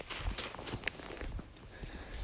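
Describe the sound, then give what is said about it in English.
Footsteps crunch faintly on an outdoor walk on a late January day: soft, irregular steps under a hiss of background noise, with one sharper tap in the middle. “So I'm out here for a walk on the very last day of January 2021.”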